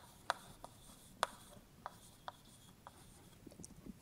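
Faint strokes of writing on a board as a 2D lattice is drawn: a few short, scratchy taps spaced unevenly across a quiet background, with no voices.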